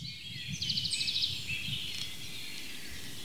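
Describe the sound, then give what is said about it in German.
Songbird song, in woodland where blackbirds and robins sing, opens with a rapid, evenly spaced trill of high notes lasting under a second, followed by a few fainter chirps over a low, steady background rumble. “Gesänge, verschiedenste Arten von Singvögeln, haben Melodien, die sie vortragen. Sehr abwechslungsreich und auf sehr unterschiedliche Art und Weise begleiten uns die ganze Zeit, seitdem wir hier unterwegs sind. Die Amsel, das Rotkehlchen,”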